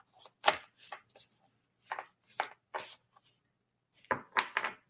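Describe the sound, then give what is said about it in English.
Papery swishes and light snaps of a card being drawn from a deck, many short, quiet rustling bursts in an irregular rhythm with a pause near the middle. “Let me pull the card for you”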